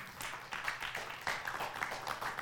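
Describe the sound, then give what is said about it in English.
An audience clapping their hands during a Black History Month talk, faint, steady rhythmic claps that continue throughout. “Clap your hands for that.”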